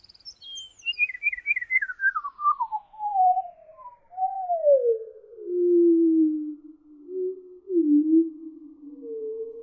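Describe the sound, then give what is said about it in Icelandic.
Eurasian wren song slowed to one eighth speed: a stuttering burst of high notes melts into long gliding tones that sweep steadily downward to a low pitch, ending in drawn-out, whale-like moans. “Og ef við hægjum enn frekar á músarindilsöngnum, niður í það bil 1/8 af venjulegum hraða, þá hljómar söngurinn svona.”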